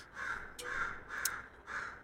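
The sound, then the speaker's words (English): A crow cawing: four harsh, evenly spaced caws, moderately faint, with no other sound. “I hope you guys can hear that crow going off.”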